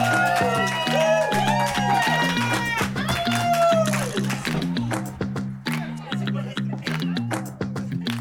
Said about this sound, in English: A sick beat, isn't it? Is this working? Sick beat?